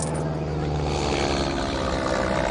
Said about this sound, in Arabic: طيارة، لك طيارة، احتموا لك يا ربو.